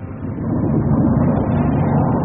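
Rocket motors of a Space Force craft firing at launch, a loud, steady roar of deep rumbling noise that holds unbroken for the whole stretch with no voices.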